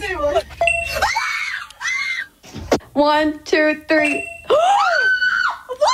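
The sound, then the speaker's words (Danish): Children screaming in excitement as they open squishy dumpling toys: loud, high-pitched shrieks and squeals in repeated bursts, with a short spoken count near the start. “Det er nogen, der er glade i hvert fald. Helt vildt glade. Man skulle tro, det var AGF-børn, men det er det ikke. Det er børn på TikTok, der åbner det, der hedder Squishy Dumplings.”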